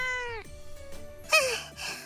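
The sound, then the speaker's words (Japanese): Cat meowing while squabbling over a dropped piece of fried chicken: a faint meow sliding down in pitch, followed by a shorter, noisier cry. “レオったら猫と張り合ってる。落としたからもう食べられないのに。”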